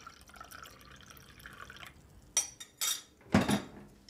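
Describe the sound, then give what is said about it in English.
Tap water and salt water being poured into glasses, with a few short splashing bursts and clinks after a faint, quiet stretch. “So, some tap water, salt water,”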